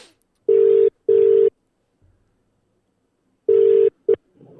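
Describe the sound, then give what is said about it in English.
Touch-tone keypad beeps as a telephone number is dialed: two steady tones in quick succession, a pause, then a longer tone and a brief clipped one. No voices. “Here we go. We're dialing.”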